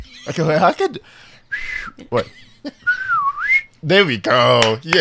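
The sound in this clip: People attempt excited whistles between bursts of chatter and laughter: a few thin, wavering whistle tones, one dipping and then rising, alternate with animated voices.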